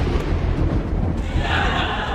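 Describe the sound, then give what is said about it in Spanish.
Thunder rolls as a loud, sustained low rumble throughout, with a brighter band of noise swelling in the second half and no voices. “Ay, me asustaste con el trueno. Dije, está lloviendo afuera, ¿a poco está el sol ahorita?”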